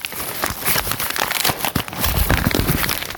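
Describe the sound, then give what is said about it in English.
A padded mailer bag with air pockets, sent by mail, is torn open by hand. Dense crinkling and ripping noise runs almost continuously, briefly dipping partway through before carrying on. “So I'm just going to take some scissors and carefully... maybe not even scissors. It looks like I can just tear open the back.”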